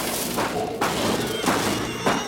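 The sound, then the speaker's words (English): Creatures bang on corrugated metal walls, producing a few heavy, booming thunks at uneven intervals over a constant dense rumble. “Down on the ground, the creatures bang on the corrugated walls, making them bulge.”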